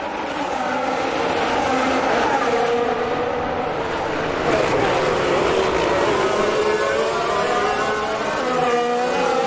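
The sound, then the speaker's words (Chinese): Racing cars roaring past during an overtake in a 50-lap circuit race: a continuous loud, high engine whine with wavering pitch bands and no talk. “好不容易我们终于看了一次超车了。”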